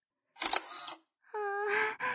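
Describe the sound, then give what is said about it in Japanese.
A camera shutter goes off faintly, with a short clicky burst followed after a brief gap by a longer, brighter burst with a ringing tonal edge. “そもそもさ、こんな最高の眺め写真に撮らないわけないでしょ。”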